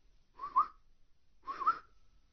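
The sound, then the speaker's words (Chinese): Two soft whistles come from outside a wall. Each is a brief, fairly high whistled call, with a pause of about a second between them, and no other sound is heard. “忽听得围墙外轻轻传来几下口哨声”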